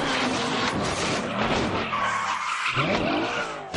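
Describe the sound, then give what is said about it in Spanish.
Tires screech as a car skids into a handbrake spin during a movie car chase with motorcyclists. A loud, continuous skid carries shrill squealing tones through the middle, with engine roar underneath and no speech. “Izan echa el freno de mano, hace un trompo y arrolla a dos.”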